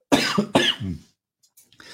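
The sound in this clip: Coughing from someone who has a sesame seed from sushi stuck in the throat: two sharp, harsh coughs in quick succession, each trailing into a rough rasp, followed by a brief faint throat sound.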